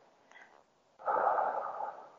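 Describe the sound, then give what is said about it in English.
One slow inhalation through the nose during a guided breathing exercise, a soft, steady airy hiss that starts abruptly and holds evenly for over a second. “Let's do that a few times. In through the nose.”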